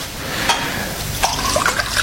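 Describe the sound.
Water being poured for a drink, a steady liquid trickle with a few brief drips and splashes standing out, no voices.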